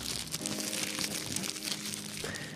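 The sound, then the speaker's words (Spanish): The paper wrapper of a polvorón crinkles and rustles as it is opened, a continuous, fairly quiet crackling texture that runs throughout with no talking. “Oís el papel, ¿verdad?”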